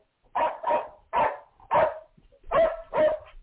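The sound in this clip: Dog barking: six loud, gruff barks in uneven bursts, mostly in quick pairs with brief silences between, heard on their own.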